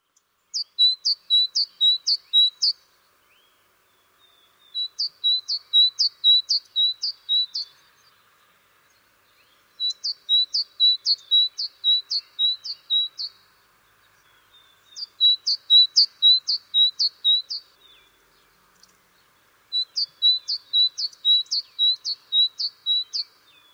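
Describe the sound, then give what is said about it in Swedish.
Great tit singing high, bright repeated notes in five separate bursts, each a quick run of about six to eight chirps, with short silent gaps between them. “talgoxe.”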